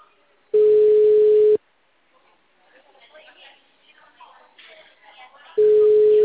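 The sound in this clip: Ringback tone on a phone line: two long, steady, low-pitched beeps spaced several seconds apart, with faint murmuring noise filling the gap between them.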